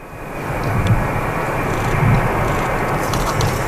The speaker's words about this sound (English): That's the sound of the plane carrying 4 Canadians from the Canary Islands landing at the airport in Bagotville